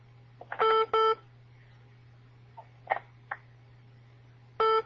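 Electronic telephone beeps with bright, harmonic-rich tones: two loud bursts close together near the start, a few softer blips in the middle, and another loud burst at the end, all over a steady low hum.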